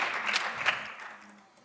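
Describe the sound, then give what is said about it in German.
Audience applause closing a lecture: a dense spatter of clapping with a few sharper peaks early on, then a gradual fade until it dies away by the end. “Also einen Applaus für die Ösis, Erich Mechel.”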